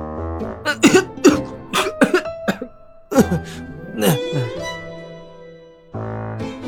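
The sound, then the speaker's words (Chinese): A man coughs many times after choking, with a rapid string of loud, voiced, strained coughs that break into rough hacking and then settle into quieter throat noises. “像是被呛住了，咳嗽了好几声”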